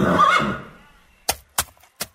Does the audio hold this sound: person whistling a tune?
no